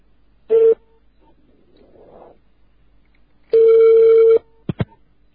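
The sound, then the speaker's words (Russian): Telephone tones from an incoming long-distance call: a short tone, then a quiet gap, then a longer tone of about a second, followed by two quick pulses. “Междугородний входящий звонок.”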